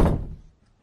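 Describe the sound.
A door being shut, one dull, heavy thud that fades quickly into near silence.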